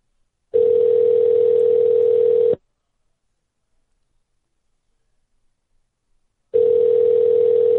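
An outgoing telephone call ringing out: two identical steady ringback tones, each about two seconds long, separated by roughly four seconds of silence, clean and loud with no voices.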